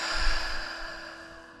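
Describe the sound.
A slow, deep breath drawn in during a guided self-care exercise, a soft airy inhale that swells briefly early on and then tapers off over a steady, hushed tonal background.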